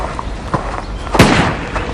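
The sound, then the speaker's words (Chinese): Gunshots ring out as a few sharp, loud cracks, the strongest one near the middle, with fainter pops before and after it over a steady, noisy background. “糟了，有枪声，好像是民团的人追来了。”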